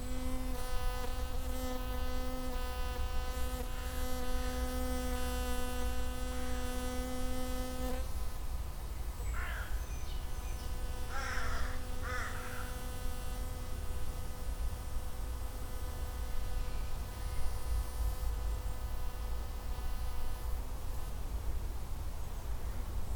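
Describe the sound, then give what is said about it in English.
A hoverfly buzzes in the woods, a faint, steady, tonal whine that holds for several seconds, drops out briefly, then returns and hums on softly over low background rustle. “Just stopped in the woods for a minute, and I heard that amazing sound, and it was I think it's a hoverfly.”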